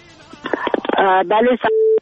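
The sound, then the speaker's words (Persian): A telephone call connects during a call-in: brief talk gives way to a quick run of short dialing beeps and clicks, ending in a single steady tone before the line cuts. “لحظات پایانی برنامه از یک تماس البته وصل می سازیم”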